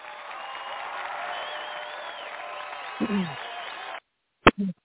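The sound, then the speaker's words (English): An audience gives a round of applause, a dense, steady patter of clapping that holds for about four seconds. A voice briefly cuts in near the end, then the clapping stops abruptly, followed by a couple of short voice fragments. “let me just give him another round of applause.”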